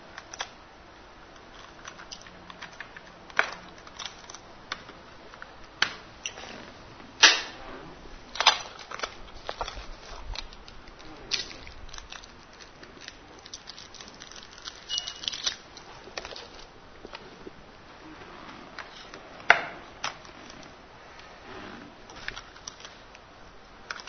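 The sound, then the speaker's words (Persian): A cassette tape is swapped in a recorder: many sharp plastic clicks, snaps and rattles come at irregular intervals, mostly faint, with a few louder clacks and no talk. “ببخشید من این نوار رو هم عوض کنم اگر اجازه بدید.”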